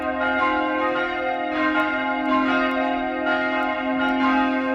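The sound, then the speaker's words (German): Church bells cast by the Bachert foundry ring the midday peal in Utting, swung by hand on ropes. Many overlapping metallic strikes sound over a sustained humming tone, irregular and continuous throughout. “Per Seilzug werden sie, wie in alten Zeiten, weiterhin noch von Hand geläutet. Das Mittagsläuten aus Utting von Michael Mannhardt.”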